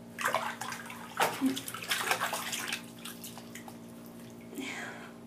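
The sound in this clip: Bathtub water sloshes and drips as two people wash each other. Irregular bursts of splashing alternate with quieter drips, and faint voices sit under the water sounds.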